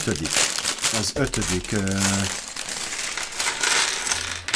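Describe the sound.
Crinkling and rustling of a plastic parts bag from a building set being opened, with sharp crackles and small clinks of loose pieces, and a voice heard briefly amid the noise.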